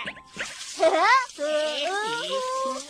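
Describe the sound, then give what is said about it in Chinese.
Tap water runs in a steady, hissing stream as hands are washed with soap before lunch, while children's voices talk over it. “我去洗洗手。”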